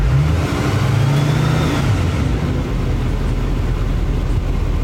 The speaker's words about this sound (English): Oh, that's diesel. Yep. You can hear the turbo. Yeah, you hear the intake, yeah. Smooth, though.